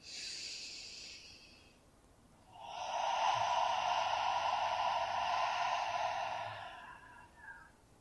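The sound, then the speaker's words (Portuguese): A deep breath taken in a guided breathing exercise: a soft, brief rush of air drawn in, then a long, loud stream of air breathed out for several seconds before it fades, with no talking. “Você precisa escutar o barulho do ar saindo. Tanto faz se você vai fazer um barulhão, se você vai fazer um barulhinho, o importante é que você ouça o ar saindo. Então, inspira fundo.”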